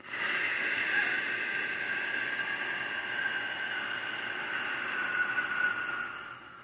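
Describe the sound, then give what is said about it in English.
Slow breath during a guided breathing exercise: a long, airy hiss runs steadily through the whole stretch at an even, moderate level, with no clear pause or other sound. “Breathe in. Hold it. And out.”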